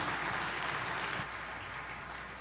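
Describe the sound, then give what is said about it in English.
A church audience applauds to welcome a pastor, with steady, sustained clapping that stays fairly soft and even through the whole clip. “Let's give the Lord a big hand for him.”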